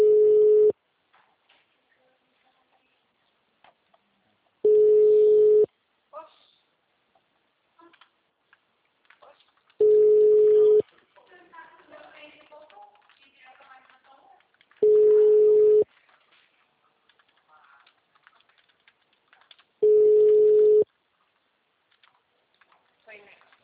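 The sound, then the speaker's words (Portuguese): A telephone line gives the tone of a called number that is not answering: five long, steady mid-pitched tones repeat evenly about five seconds apart, with only faint low noise in the gaps. “O número não responde.”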